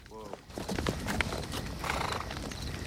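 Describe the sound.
A horse's hooves clip-clop as a rider approaches a massacre scene at night, a short whinny at the start followed by a rapid, steady run of hoofbeats.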